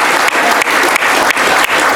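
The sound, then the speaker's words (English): Applause from a crowd greeting a birthday: dense, steady clapping, loud and continuous from start to finish without talk over it. “Let's give Michael a big round of applause.”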